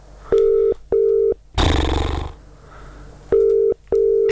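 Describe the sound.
Ringback tone of a phone call waiting for an answer: two mid-pitched tone bursts, then a loud, harsh noisy rush, then two more matching tones. No voices are heard.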